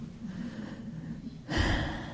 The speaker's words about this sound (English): I just take a couple of minutes and get a couple of deep breaths, and I will too.